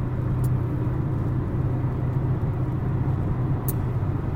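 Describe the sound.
A car rumbles steadily while being driven, making a continuous low drone with no voices, broken only by a couple of faint ticks.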